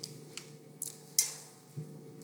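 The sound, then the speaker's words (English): An old church offertory dish is handled, giving a few faint, light taps and metallic clinks at irregular spacing, one somewhat louder ringing knock among them, with quiet between. “It's an offertory dish. So back in the day, you'd pass the plate around, and then you'd put all the money in here”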